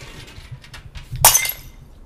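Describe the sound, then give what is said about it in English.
Glass smashes on the floor after a microphone wire knocks it over: one sharp, bright crash with a short tinkling tail, rising out of a low background murmur. “guys, I've just smashed the glass. Oh no. Basically, the microphone wire smashed the glass on the floor.”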